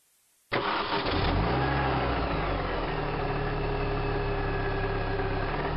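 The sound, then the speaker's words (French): A car engine cranks and catches with a sudden loud burst, then settles into a steady idle. The engine runs alone, with no other sounds. “qu'est-ce que tu as entendu? Monsieur, la voiture.”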